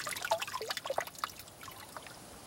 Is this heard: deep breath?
no